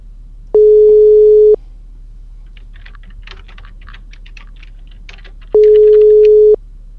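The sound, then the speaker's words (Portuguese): Phone ringback tone heard while calling someone at midnight: two long, steady, mid-pitched tones about a second each, separated by a pause filled with faint clicking, like typing. “Será que vai me atender? Eu tô ligando pro Daniel.”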